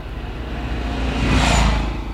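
A car drives past with a steady low engine rumble and tyre hiss that swells toward a peak and then eases slightly. No voices are heard.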